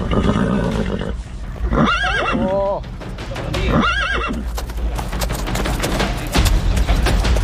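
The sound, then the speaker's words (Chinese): A pony resisting being saddled lets out two shrill, wavering whinnies about two seconds apart, with hoof clops and continuous rustling noise around them. “你放马鞍的时候，他就开始转圈嘛，不让你放马鞍嘛。 马鞍放不上”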